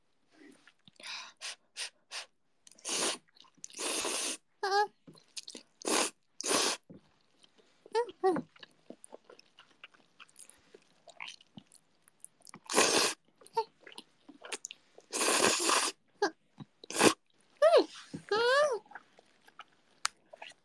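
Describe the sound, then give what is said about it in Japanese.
Someone eating ramen late at night, with several loud, breathy slurps and bursts of chewing between short stretches of quiet talk. “この時間のラーメンは罪の味ですの。”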